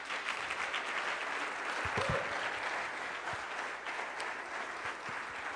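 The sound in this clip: Audience applause welcoming a speaker onto the stage: dense, steady clapping that holds at an even level for the whole stretch, with no talk over it.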